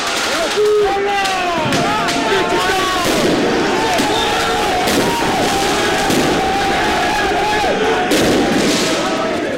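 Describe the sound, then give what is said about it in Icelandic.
Fireworks go off during street celebrations on the Champs-Élysées in Paris after a PSG title win. A few sharp bangs cut through a loud, continuous roar of a large crowd. “Flugeldum var skotið á loft og skemmdarverk voru unnin með alnars á 6 bílum, 2 fyrirtækjum og strætóskýli við Champs-Élysées.”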